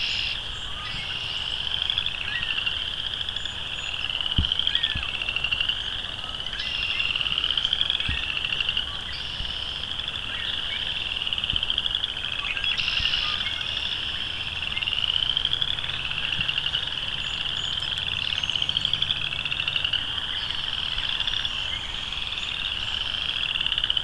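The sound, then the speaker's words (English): Chorus frogs call in a continuous high-pitched chorus of many overlapping rasping trills, repeating steadily throughout without pause. “Though I don't know if they've solved the whole western versus boreal chorus frog thing, but chorus frogs for sure.”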